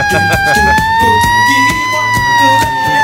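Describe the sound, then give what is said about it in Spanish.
A wailing siren sounds over rhythmic 1970s–80s dance music. The loud, sustained tone rises slightly and then sinks gently, while steady beats thump underneath. “Así es, suenan las sirenas.”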